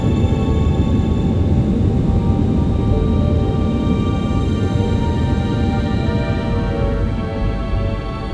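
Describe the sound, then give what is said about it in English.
A jet's engines roar steadily as it prepares for takeoff: a dense low rumble topped by a high whine that holds level throughout, with no clear rise. “Close the door and prepare for takeoff. Ignition. Go for takeoff.”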